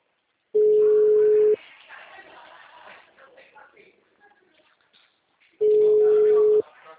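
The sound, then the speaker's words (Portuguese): A telephone line tone sounds while a call is placed, two loud, steady, mid-pitched tones each about a second long and roughly four seconds apart, with faint muffled noise in the gap between them. “preciso fazer uma ligação.”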